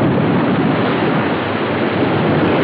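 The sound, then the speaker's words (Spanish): Rough sea water surges and crashes around a wrecked boat whose broken mast floats on the waves, a steady, loud, dense roar of surf and wind with no distinct breaks and no voices. “Un golpe de agua hace desaparecer a Rosy.”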